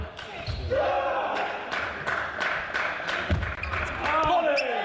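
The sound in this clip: A table tennis ball in a match is struck and bounced during a fast backspin serve. Several sharp, light ticks and clicks come in quick succession under a commentator's talk.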